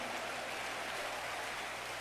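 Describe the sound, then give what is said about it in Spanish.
A church audience clapping hands for the King of Kings, a dense, steady roar of many hands blended into even noise without separate beats. “Dele palmas al Rey de Reyes.”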